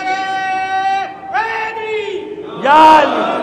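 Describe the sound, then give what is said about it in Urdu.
Crowd at a religious gathering shouting a religious slogan in unison, a few loud, drawn-out voiced phrases, the last one the loudest. “نعرہ تو کوئی لگا دو ایک”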